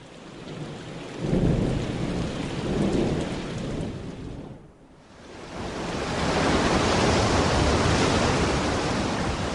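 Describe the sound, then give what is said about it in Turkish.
Heavy rain and thunder from a storm at sea: a dense, loud roar with deep rumbling thunder swelling twice early on. After a brief lull, a steady pounding torrent of rain continues, with no voices. “Hey tayfalar! Bu fırtına bizi fena yakaladı. Çok dikkatli olmazsak bir yere çarpıp batabiliriz.”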